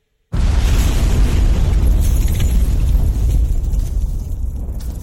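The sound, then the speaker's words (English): A pipe bomb thrown into a building explodes after a moment of silence: a sudden, very loud blast followed by a heavy, sustained roar that slowly fades over several seconds, with no voices. “I threw in a freaking pipe bomb!”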